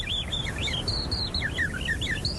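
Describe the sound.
People whistling an imitation of bird song: many quick, high chirps and twittering trills in a continuous, fairly loud run with no speech.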